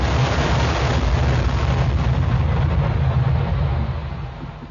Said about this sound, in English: Take a ranging shot. Gun captains, make sure of your aim. Fire only when each gun bears.